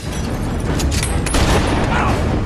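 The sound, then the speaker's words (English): Shotgun blasts ring out in an action-film fight as soldiers are shot down in a compound. A few sharp reports burst over a rumbling background of machinery and commotion. “Whistler starts to take them down with his shotgun. He fights his way to a computer room and taps in an auto-destruct sequence into each of the workstations. He shoots another soldier,”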